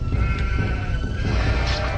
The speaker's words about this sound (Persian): گوسفندها را زودتر از اینجا ببرید.